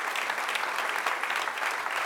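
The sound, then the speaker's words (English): Audience applause at a church service, dense hand clapping from many people that stays steady and even throughout. “Give the Lord a big hand clap tonight.”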